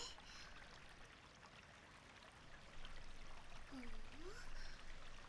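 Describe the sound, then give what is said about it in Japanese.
Faint trickling water as azuki beans are washed, a soft continuous swish that grows slightly louder through the second half. “今日はいい小豆が手に入ったからよーく洗っておかないとね。”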